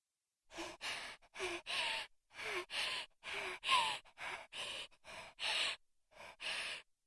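Breathless panting as a girl catches her breath after being tickled: many quick, breathy bursts of voiced gasps and sighs, closely spaced and fairly even in strength, with short pauses between some of them.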